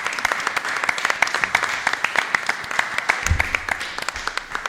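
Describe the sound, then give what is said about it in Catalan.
Applause from a group of people: many quick, overlapping hand claps form a lively, steady patter that continues from start to end. “Un aplaudiment per elles, perquè sense elles no hi ha caspa.”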